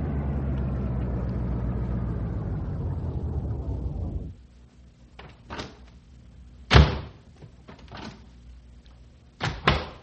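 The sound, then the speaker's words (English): A car pulls into a gas station; its steady low engine hum runs, then stops abruptly. Over the quiet that follows come several sharp door clunks and thumps, one louder than the rest. “Say, here's a gas station coming up on the right. We better fill up the tank and stretch our legs a bit.”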